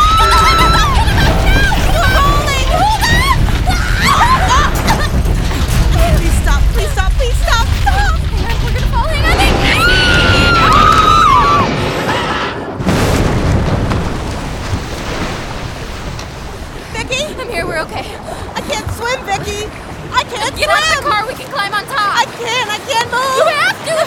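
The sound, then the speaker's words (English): An earthquake rumbles and a bridge shakes with a loud, continuous low roar and churning noise, while people shout and talk over it. The rumble drops noticeably after about twelve seconds. “This is the earthquake I wrote about. There is no safe place anywhere.”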